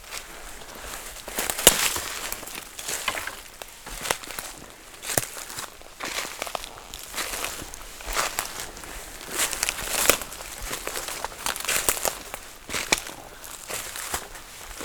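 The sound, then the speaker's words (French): Footsteps move through a Slovak forest, with many irregular, crisp steps crunching on the ground at a moderate level, heard without voices. “écoutez le son de la forêt slovaque.”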